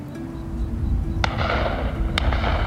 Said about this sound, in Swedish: Då och då hör du skottsalvor och ser enstaka spårljus fara iväg som omvända stjärnfall genom natthimlen.